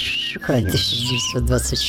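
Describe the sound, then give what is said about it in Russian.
Cinematic-sounding whistling gives a few high, clear tonal notes woven between stretches of people talking. “Но сейчас мне кажется, что свист очень кинематографичен. Согласен. Киношный свист какой-то у нас есть.”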